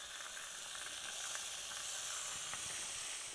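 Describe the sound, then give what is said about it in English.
Bacon frying in a pan for a cabbage dish, giving a steady soft sizzle and hiss with scattered faint crackles throughout, quiet and continuous, with no voices. “the bacon's starting to cook down a little bit here, and so I'm going to put this on low to medium heat”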